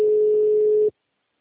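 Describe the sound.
A steady telephone dial tone sounds while a call is placed: one unbroken mid-pitched hum, loud and even, with no talk, cutting off abruptly after just under a second.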